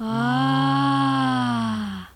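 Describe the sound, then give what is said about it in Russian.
A breathy, hoarse sung tone from a voice with the vocal cords held apart, letting too much air through. The single note is held evenly for about two seconds, then trails off at the end. “Так звучит голос, когда связки разомкнуты. Сквозь них проходит слишком много воздуха, что делает звучание хриплым.”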